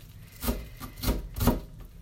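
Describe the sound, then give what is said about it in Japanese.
A knife finely chopping an onion for caramelized onions makes a few dull strokes against a board at an irregular pace, some louder and some softer, with no talk. “今日はみじん切りにするのでと飴色玉ねぎでも作っていこうかなと思います”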